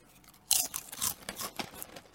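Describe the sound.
Someone eats a crunchy salted banana snack. After a quiet moment, a run of crisp, dry crunches follows at moderate loudness, with irregular bursts as the chewing continues.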